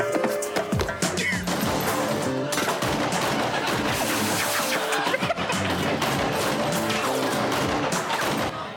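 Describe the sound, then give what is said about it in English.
Rapid gunfire in a film scene where a rapper shoots a Power Ranger: dense, continuous bursts of machine-gun shots mixed with crashes, loud and sustained throughout with barely any gaps. “I'm going to play this clip where Tretch of Naughty by Nature... shoots the Black Power Ranger, the original.”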